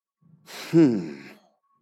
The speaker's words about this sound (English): You notice I took a deep breath.